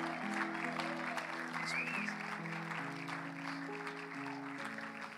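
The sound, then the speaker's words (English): Audience applause welcomes a couple onto the stage, a dense, even wash of clapping held at a steady level throughout, with sustained tones underneath. “So I want you to give them a big hand as they come up this morning.”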